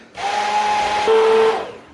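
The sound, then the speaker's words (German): An electric blender whirs as it chops onion and apple pieces for homemade ketchup, a loud, steady motor drone whose tone shifts partway through before it winds down. “Jetzt versuche ich hier mal die Zwiebel und Apfelstücke klein zu machen. Und natürlich verbindet sich alles jetzt auch noch schön.”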